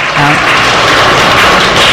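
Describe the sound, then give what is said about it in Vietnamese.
Loud applause at a Buddhist ceremony as children carry flowers in as an offering to the Buddha, a dense, continuous wash of clapping with voices over it. “Chúng ta nhiệt liệt hoan nghênh. Lặng hoa ấy trên tay của các em đang đi vào.”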